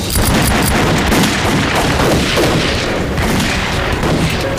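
Rifle gunfire in a battle, a loud, unbroken fusillade of many overlapping shots and booming reports blending into a dense continuous roar.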